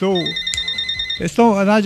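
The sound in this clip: A telephone rings with a steady, high electronic tone held for about a second, heard between stretches of talking.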